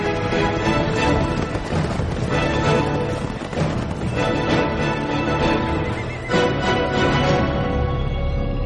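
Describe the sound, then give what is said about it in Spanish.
Horses neighing, among European livestock spreading across the Americas. The whinnies sit within a loud, continuous, dense wash of sound that holds steady throughout. “Caballos, cerdos, ovejas, cabras, pollos y cientos de manadas de bueyes toman el control de América del Norte y del Sur.”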